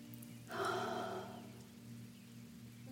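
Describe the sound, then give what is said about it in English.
A single deep breath taken during a guided breathing exercise: a soft, airy rush lasting about a second over a faint, steady low hum. “Now, join me in taking 3 deep breaths.”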